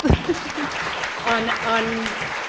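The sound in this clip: Audience applause after a talk: dense, continuous clapping with voices speaking over it.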